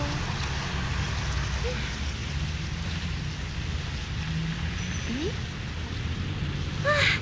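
Rain falling in a steady downpour, a continuous even hiss that holds at a constant moderate level throughout, with a few faint brief sounds standing out near the end.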